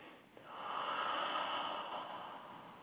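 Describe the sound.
A single slow, deep breath, taken as a pause in a guided solstice reflection: one long, soft, airy hiss lasting about two seconds, quiet and heard alone.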